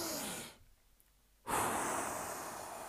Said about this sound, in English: I have found, like, in that moment when I feel an urge, I just breathe really hard. I just go,